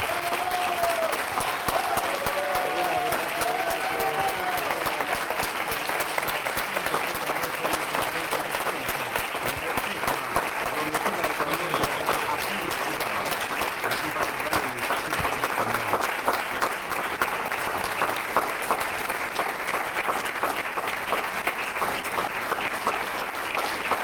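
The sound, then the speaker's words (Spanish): Applause from an audience at a press conference, a dense, continuous wash of many hands clapping that holds at an even level for the whole stretch without letting up. “Bueno, otro aplauso para Juan.”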